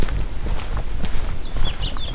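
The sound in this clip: Footsteps scuff up a path on a permaculture farm outside Oaxaca City, Mexico, a continuous uneven series of steps over noisy outdoor background, with a few short bird chirps near the end.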